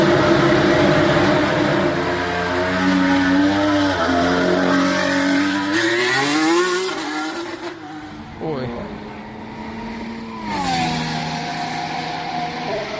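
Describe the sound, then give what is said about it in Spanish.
An Alpine Formula 1 car's Renault-built engine screams at high revs, its pitch climbing through the gears, then dropping off before surging upward again in a loud, shrill whine. “el sonido del Alpine es este que te voy a poner ahora mismo”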